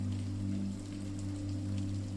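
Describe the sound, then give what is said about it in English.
Rain on window glass makes a steady, unbroken wash of soft patter, with no separate drops standing out, over a constant low hum. “Your journey upwards is punctuated by the rhythmic splats of raindrops on the windows.”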